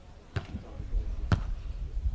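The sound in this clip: A volleyball is bounced twice on the court before a serve in a women's league match. The two dull thumps come about a second apart over faint background noise.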